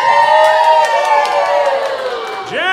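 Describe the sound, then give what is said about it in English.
A live television studio audience cheers at a sitcom taping: a loud, sustained roar of voices with high whoops on top, dipping slightly before swelling again at the end. “Is filmed in front of a live television studio audience.”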